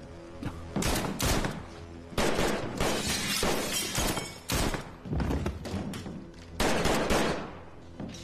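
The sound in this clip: Heavy gunfire in loud, rapid bursts of many shots, coming in repeated volleys with short gaps, mixed with sharp shattering and thudding impacts.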